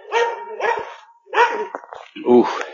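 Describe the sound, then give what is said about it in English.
A dog barks from behind a backyard fence beside a trail, giving a few sharp, loud barks separated by short pauses, with some whining between them. “he wants to come out and play. He's got the fence. We're cutting through somebody's backyard on this trail. But Ollie's good. He's not an instigator. That's not Ollie barking.”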